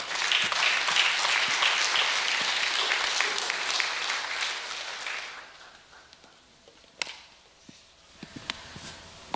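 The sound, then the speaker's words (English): A church audience gives loud, sustained applause to welcome new members at a Sunday service. The clapping fades out about halfway through, leaving near quiet broken by a few scattered sharp claps or knocks. “Come on, let's welcome them, church. Give them a hand.”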